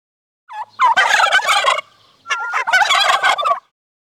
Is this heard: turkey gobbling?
yes